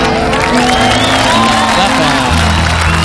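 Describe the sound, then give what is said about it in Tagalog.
An audience claps and cheers for fathers being honored at a gathering. Steady, dense applause is mixed with whoops and shouting voices, and a sustained tonal sound runs underneath. “Gani, palakpakan na to ng mga tatay, ng mga baganihan, ha?”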